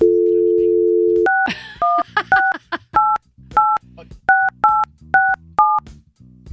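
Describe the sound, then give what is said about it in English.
Touch-tone keypad beeps dial a telephone number after a steady dial tone: a quick, irregular run of two-pitch beeps, about ten in all, with a little faint handling noise early on. “All right. Let's give him a call.”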